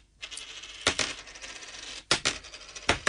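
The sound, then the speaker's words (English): Coins dropped one at a time, running from lowest to highest value: a few quiet, sharp metallic clinks with short rings, separated by pauses, with no other sound. “Again, here are the coins very, very quickly, okay? Very, very quickly again. This is going from lowest coin, lowest value coin to highest value coin.”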